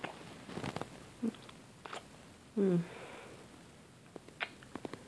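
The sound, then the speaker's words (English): Someone licks drops off their chin: a few soft, wet mouth sounds and small clicks, with one longer slurp in the middle, all faint over quiet background. “there's even a couple of drops right here in my chin. Nice. I'm gonna see if I can just lick it off.”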